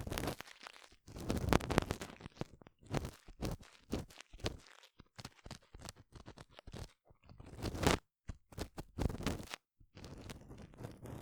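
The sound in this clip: Crunchy scraping and rustling from an ear pick cleaning an ear, in many irregular bursts of scratching separated by short pauses, with no talk.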